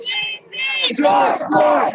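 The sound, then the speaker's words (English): Protesters outside the Justice Center chant George Floyd's name in loud, repeated shouted phrases, with many voices rising and falling together in steady bursts. “For a few minutes, they stood outside, chanting George Floyd's name.”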